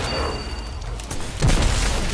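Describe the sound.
A grenade explodes during a video game match with a sudden low boom partway through, followed by a dense rumbling tail that carries on to the end over steady background game noise.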